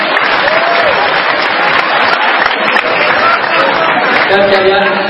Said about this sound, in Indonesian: Tepuk tangan yang benar-benar.